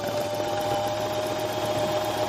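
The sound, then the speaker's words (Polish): A computerised sewing machine runs with a steady, even electric hum and a thin high whine, holding constant throughout with no clattering rhythm or pauses. “To w ogóle nie jest ten wspaniały dźwięk, jaki daje zwykła maszyna do szycia”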